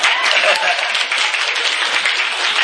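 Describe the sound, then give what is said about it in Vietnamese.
An audience claps hands in a dense, loud, continuous patter that stays even throughout, with voices mixed in. “Đứa nào khoái đưa lên, khoái đưa lên đi, khoái đưa lên vỗ tay.”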